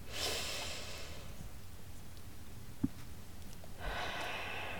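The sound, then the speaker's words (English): Slow, deep breathing during a guided breathing exercise with a five-second inhale. A soft, airy rush of breath is followed by a long, quiet hold, then another breath begins. No talking is heard. “Let's do it one more time together. Inhale for 5 seconds.”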